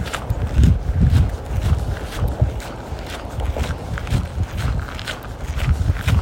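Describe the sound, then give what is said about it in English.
Footsteps of a person walking for health: many soft, low thuds in a steady, even rhythm, heard alone without talk. “Just walking, walking for health.”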